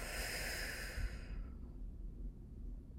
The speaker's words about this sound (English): So take a nice deep breath in with me. And exhale.